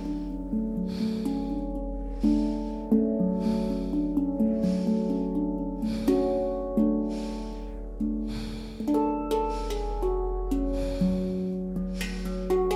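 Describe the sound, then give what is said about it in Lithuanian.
Rapid, forceful breathing in and out through the nose during a chakra breathing practice: many sharp, evenly paced breaths in a steady rhythm over sustained, droning musical tones. “Per nosį įkvėpk, išplečiant apatinę pilvo dalį, per nosį taip pat energingai iškvėpk pilnai pašalinant orą iš pilvo. Pilvas susitraukia.”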